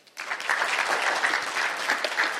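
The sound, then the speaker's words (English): An audience applauds graduates with a steady wash of clapping that starts after a brief quiet moment and holds at an even level to the end. “Congrats to graduates. Give them a hand.”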